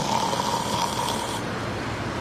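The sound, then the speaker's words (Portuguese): Snoring of a cartoon character at bedtime: one long, raspy, noisy breath that drops away after about a second and a half. “Mas quando você ronca, eu não consigo dormir.”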